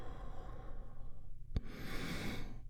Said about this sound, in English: We get things started by taking a big, deep, healing breath all together. Here we go. And release.